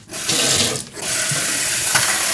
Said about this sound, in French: Je fais couler l'eau. Je pense que ça va suffire. J'immerge le filtre.